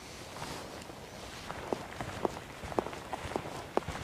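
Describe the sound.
People set off on a full-moon night walk across a moor. Soft, evenly spaced footsteps begin after a short pause and continue over a low, steady hiss.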